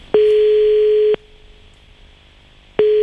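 A telephone line tone heard before dialling again: a steady, loud, mid-pitched electronic beep lasts about a second and stops abruptly. Quiet line hiss follows, and a second identical beep begins near the end.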